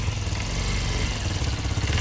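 Steady engine rumble from a vehicle being revved and shifted into second gear, a continuous loud low-pitched drone with slight fluttering pulses and no clear break.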